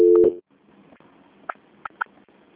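Telephone line tones during a call transfer: one steady, buzzy tone, then a stretch of low line noise broken by three brief, faint clicks or blips.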